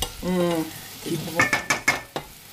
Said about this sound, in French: On entend un petit peu. Ah. Là, il y a du beurre qui fond là.